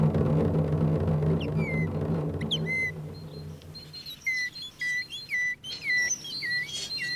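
A person whistles an imitation of a tit's call: a run of short, high, chirping notes repeated many times in quick bursts, after a low background hum fades out.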